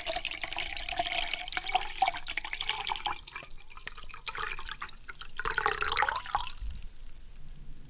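Foley of fuel pouring from a gas can: a continuous, fairly faint liquid splashing and gurgling stream with uneven swells, ending in a final burble.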